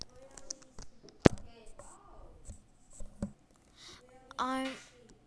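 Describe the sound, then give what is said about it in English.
Pen scratching across a card as someone writes by hand, soft scraping strokes broken by a couple of sharp taps, with a short burst of a voice near the end. “I'm writing a card to my American friend.”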